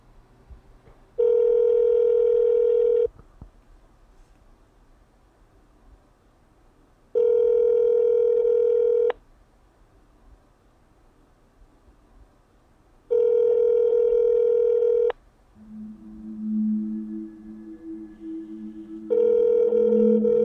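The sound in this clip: An outgoing telephone call rings back with four steady buzzing tones of about two seconds each, evenly spaced by long quiet gaps, and a fainter lower tone sounding between the third and fourth rings.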